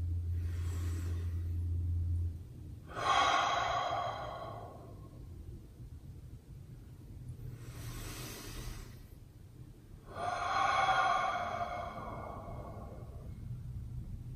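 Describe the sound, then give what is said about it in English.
Deep breathing during a relaxation exercise, inhaling through the nose and exhaling through the mouth: two slow cycles, each a soft airy inhale followed by a louder, longer sighing exhale, over a faint low hum and with no talk. “Let's take 3 deep breaths, okay? Inhale through your nose, exhale through your mouth.”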